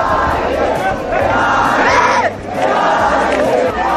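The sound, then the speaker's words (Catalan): Young crowd roaring and cheering at a youth admiration battle at the Arc de Triomf in Barcelona: loud, sustained shouting and whooping that dips briefly midway, then surges back to full volume. “Que jutjant pel que esteu escoltant podria ser qualsevol persona animant, sí, potser en un partit de futbol, eh? Aquest és el so, per això, d'una d'aquestes primeres batalles a la ciutat de Barcelona. L'escenari triat ha sigut l'Arc de Triomf.”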